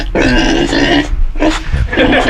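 A person imitates a pig during a farm-animal game, voicing three rough, throaty grunts in short bursts, loud and nasal, with brief pauses between them.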